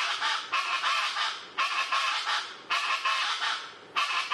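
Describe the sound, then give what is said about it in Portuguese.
A Pantanal chachalaca calling in loud, raucous bursts of harsh, honking notes. Several long phrases follow one another in a steady rhythm, each with a sharp start and a slight fade. “O araquã do Pantanal, que a gente já mostrou aqui no programa em um outro episódio, quando a gente foi falar dos sons marcantes do Pantanal mesmo, que é esse som que a gente está ouvindo.”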